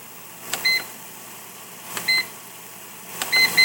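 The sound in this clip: Warning beeps from an oven's browning element control: three button clicks, each followed by a high electronic beep. The final beep is held noticeably longer than the others.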